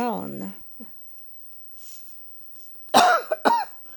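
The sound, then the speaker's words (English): Two loud, harsh coughs burst out near the end after a short stretch of voice and a quiet pause, with a smaller rasp between them. “I'm sorry for coughing.”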